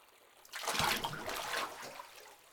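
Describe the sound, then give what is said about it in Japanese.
Water sloshing and trickling as someone slowly lowers into hot bath water. A soft, swelling splash rises, lingers, then settles back to quiet, with no voices. “ではまた私の手を取って、そう、ゆっくりと浸かりましょうね。”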